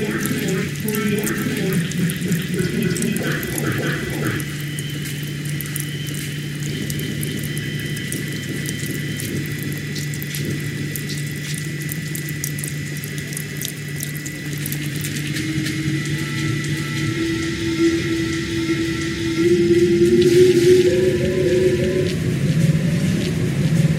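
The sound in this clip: Water pumps run underground where water has flooded, making a steady mechanical drone with a low, constant hum. The sound is continuous throughout and grows somewhat louder toward the end.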